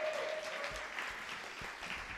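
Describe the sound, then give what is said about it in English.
Audience applause after poets perform at a poetry slam: steady, dense clapping with no clear breaks, fairly quiet throughout. “Round of applause for all these poets, please.”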